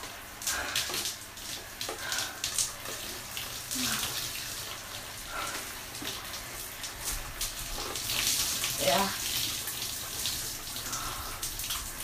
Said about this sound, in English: so I'll wash my hair.